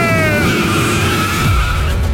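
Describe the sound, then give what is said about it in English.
Race car tyres skid and squeal over a loud engine roar, a dense, continuous noise with high, sustained squealing tones running through the whole stretch. “Start your engine!”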